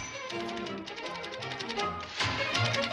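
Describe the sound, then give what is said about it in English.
Rapid typewriter typing sound effect, many quick keystrokes in a steady run over a tonal musical backing, growing louder and denser near the end. “And this is the speed at which that he types his emails.”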